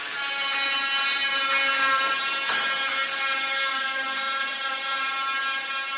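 An angle grinder sands the body of a red 1958 Jaguar E-Type, a 250-horsepower classic car, in a workshop. It gives a steady, high-pitched metallic whine with strong ringing overtones that runs continuously without a break.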